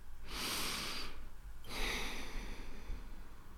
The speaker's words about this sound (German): dann atme kurz tief ein und aus